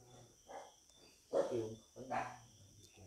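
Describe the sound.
A dog barking a few times in short, fairly loud bursts over a steady background of chirping insects.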